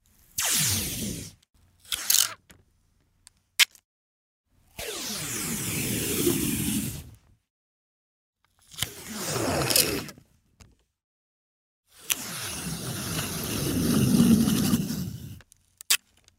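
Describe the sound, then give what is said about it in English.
Scotch tape is peeled off in several long, crackling, crunchy strips with silent gaps between them, mixed with a few brief ripping bursts and isolated clicks, the longest peels swelling louder toward their ends. “That was the sound of peeling scotch tape.”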